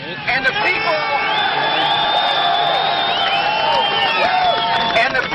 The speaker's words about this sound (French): On ne vous entend pas, crie la foule.